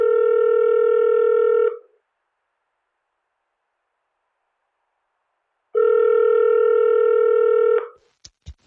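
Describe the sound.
Ringback tones play on an outgoing phone call. A long steady tone sounds, then a few seconds of silence, then a second equal tone, followed by a couple of sharp clicks as the line is picked up.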